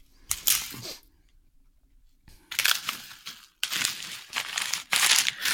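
Crinkling of wrapping paper and plastic foil as a wrapped gift is torn open: loud, crackly bursts of rustling, a quiet pause, then more vigorous crinkling.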